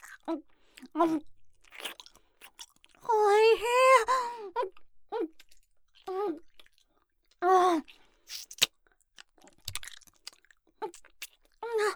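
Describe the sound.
Wet, smacking chewing of meat, with many quick mouth clicks and crunches throughout and a drawn-out appreciative moan in the middle, plus a shorter hum later.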